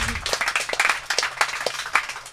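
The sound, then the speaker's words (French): Applause at a school web radio event held at the French high school in Singapore: many quick, sharp claps in an irregular patter, steady in loudness across the short stretch, with no voices. “Un tonnerre d'applaudissements également pour ma collègue animatrice Emma.”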